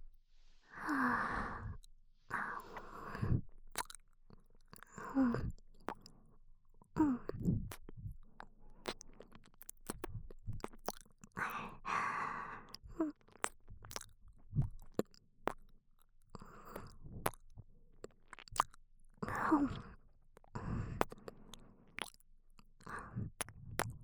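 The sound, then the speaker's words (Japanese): Chewing and biting close to the mic, heard as many short wet crunches and bites in an uneven rhythm, mixed with soft breathy sighs and no talk. “ならもっと噛んであげるからいっぱい感じていいよ。”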